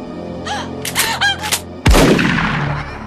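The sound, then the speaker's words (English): A single loud shotgun blast in a radio drama, a sharp boom whose noisy tail dies away over about a second, preceded by a frantic crying voice. “He shoots Catherine.”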